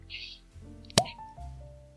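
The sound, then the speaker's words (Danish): A cork pops from a bottle of Gouden Carolus Easter beer, giving one sharp, brief, loud snap in the middle of quiet talk. “men nu begynder jeg lige så stille at dreje rundt på stoltråden her. Og så har jeg den skønneste kogprop, som er sat i flasken her. Så sidder jeg her med en Gauden Carolus Easter.”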